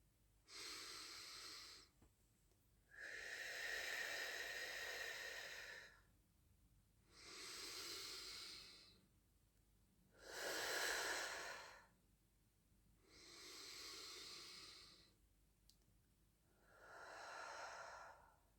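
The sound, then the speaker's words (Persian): Slow, deep belly breathing during a guided relaxation exercise, six long, soft, airy breath sounds, each inhale and exhale separated by a short quiet pause in an even rhythm. “بریم برای سه تا نفس. نفس‌هاتون رو نفس‌های عمیق و شکمی کنید. بریم.”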